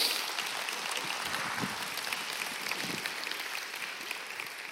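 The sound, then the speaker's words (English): An audience claps steadily to welcome a student to the stage, a dense, even wash of applause lasting the whole time and easing slightly near the end. “I want to welcome Logan Rademacher up to the stage. Give him a hand.”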